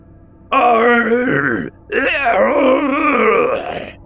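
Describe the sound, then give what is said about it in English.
Eerie wailing sound in two long, harmonic, voice-like swells, loud and alone: a wavering cry breaks off briefly, then a second, longer wail wavers and trails away. “their momentum was brought to a halt by a wailing sound.”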